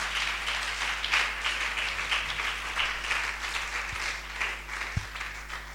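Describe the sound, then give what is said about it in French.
An audience at a French-speaking church service applauds, producing a faint, continuous patter of clapping over a low hum, with two brief low thumps near the end. “on va acclamer Dieu pour sa vie.”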